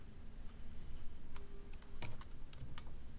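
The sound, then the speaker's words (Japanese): Keys clicked on a computer keyboard while Ctrl and Alt are held and F11 is tapped, a few sharp, quiet clicks scattered over a low steady hum. “この時にコントロールキーとオルトキーは押したまま離さず、F11 キーを軽く1回押すとスムーズに操作することができ”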